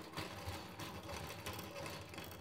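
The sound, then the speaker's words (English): Honey extractor spinning two or three uncapped wax honeycombs, a quiet, steady mechanical whirring with a fast rattling texture that runs unbroken throughout. “Then we carefully cut the wax capping off the combs and put two or three inside the extractor and spin it, and the honey flies out.”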